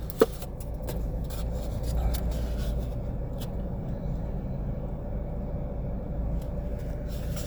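A car being driven gives a steady, low road and engine rumble that stays even throughout, with a small click near the start.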